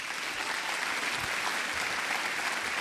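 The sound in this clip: Applause from an audience welcoming a guest speaker at a morning community gathering, dense and sustained at an even level throughout, with no voices over it.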